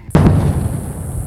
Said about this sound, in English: That's the sound of a sonic boom created by a plane breaking the sound barrier.